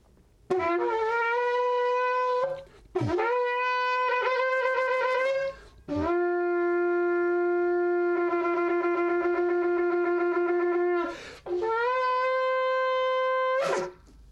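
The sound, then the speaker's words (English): A shofar is blown in four long, brassy blasts. Each blast begins with a quick upward bend into a steady, buzzing tone, and the third blast is held far longer than the others. “This is the shofar, Sid, that I actually sounded on that day to the World Trade Center from the Statue of Liberty. I'm going to sound it, and then we're going to pray together.”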